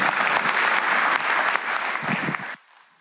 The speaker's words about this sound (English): Can we just again give the Lord another round of applause as we celebrate the work that he has done?